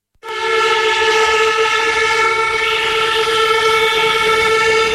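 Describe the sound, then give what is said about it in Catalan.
A long, loud whistling blast rises from a doctors' strike protest outside a regional health administration building in Barcelona, a steady harmonic tone that starts abruptly and holds unbroken at an even level. “Una sonora i llarga pitada és el so de la concentració d'avui dels metges i metgesses per assegurar-se que els responsables que estan treballant ara mateix dins l'edifici de la Subdirecció Regional de Salut de Barcelona els senten.”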